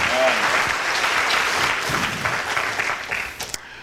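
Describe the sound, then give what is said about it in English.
A church audience clapping in welcome, dense and steady applause with a voice briefly heard at the start, thinning out toward the end. “我们给耶稣一个最热情的欢呼和鼓掌，好吧 ？Let us clap our hands and welcome Lord Jesus to be with us.”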